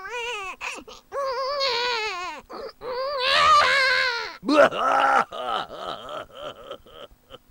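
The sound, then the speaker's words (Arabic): A person cries over last year's misfortunes in long, wailing sobs. The voice rises and falls in pitch, with short gasping breaks between the cries and a run of choppier whimpers toward the end. “إنني تذكرت المصائب التي حدثت لي في العام الماضي وأريد أن أبكي عليها.”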